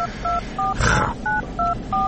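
A telephone number is keyed in as six short, evenly spaced touch-tone beeps, each a clear two-note electronic tone. A brief burst of rustling noise falls between the third and fourth beeps.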